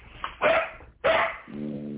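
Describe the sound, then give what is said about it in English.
Two sharp, loud barks from a dog, one after another with a short pause between, followed by a quieter steady sound to the end. “What are you barking for?”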